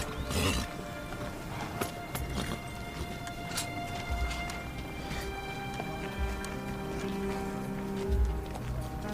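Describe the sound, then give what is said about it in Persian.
Horse hooves clip-clop as a rider mounts, a run of irregular, fairly loud hoof beats over steady, busy background noise. “سیاوش سوار اسب میشه.”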